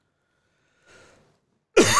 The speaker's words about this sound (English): Excuse me. Didn't mean to cough in y'all's ear.